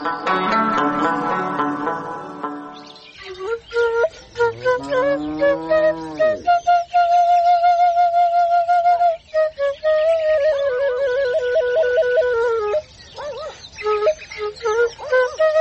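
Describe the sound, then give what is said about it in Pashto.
A shepherd's flute plays a melody of high, breathy notes, with swooping bends at first and then long held tones and quick ornamented runs, loud and carrying, preceded by a brief stretch of another sound. “چې دا شپېلۍ څوک غږوي؟”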